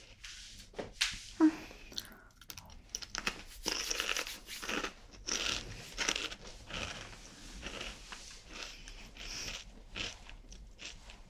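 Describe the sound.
Crunchy snack being chewed, with many sharp, irregular crunching bites and wet chewing sounds, fairly loud and close throughout, with no talking.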